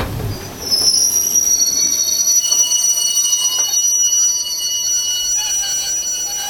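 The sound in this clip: Steel wheels of a long iron ore freight train screech as it pulls into a station: piercing, sustained high squeals in several overlapping tones over a low rolling rumble, starting after a brief quieter moment.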